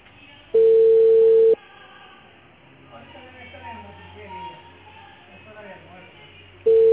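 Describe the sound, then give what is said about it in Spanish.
A telephone ringback tone sounds while calling an area supervisor. One steady, mid-pitched tone lasts about a second, then quieter talk follows, and the tone starts again at the very end. “Y nada, no, a mí tampoco me contestan. Estoy llamando al supervisor del área y no.”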